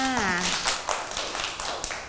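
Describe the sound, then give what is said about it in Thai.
Children clap for a classmate. A short spoken phrase at the start gives way to a few scattered, sharp claps, with voices still present underneath. “ปรบมือให้น้องอันตาหน่อยค่ะ”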